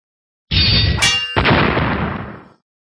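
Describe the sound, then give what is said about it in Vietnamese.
Swords ringing and a golden bell clanging: a loud metallic crash opens into a bright, sustained ringing tone, with another sharp strike partway through, then the ring slowly fades out. “Đạo kiếm cùng reo vang, chuông vàng chấn động mãnh liệt”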